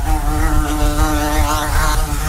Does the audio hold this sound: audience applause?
no